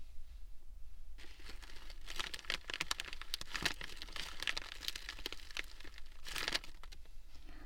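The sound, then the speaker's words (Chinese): A plastic sanitary-pad packaging bag is torn open and crinkled, giving faint, continuous crackling and ripping with many dense little bursts and no talk. “现在把包装袋撕开。”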